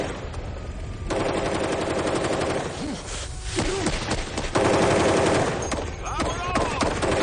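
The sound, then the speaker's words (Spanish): Sustained automatic gunfire in a shootout scene from a thriller film: a dense, continuous rattle of rapid shots that carries through the whole stretch at a steady loud level, swelling slightly at times. “Se produce un tiroteo entre ambos”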